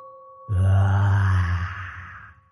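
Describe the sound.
A deep chorus of groaning voices, like dozens of throats moaning at once, swells in suddenly and loudly, holds for about a second and a half, then slowly fades. A faint steady hum sounds before it.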